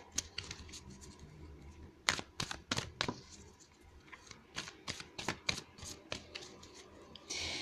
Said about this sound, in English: I will go ahead and pull an oracle card as well.